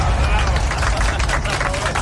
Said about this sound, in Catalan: Jo diria, gràcies per aquests aplaudiments tan sincers, que sé que ho han estat.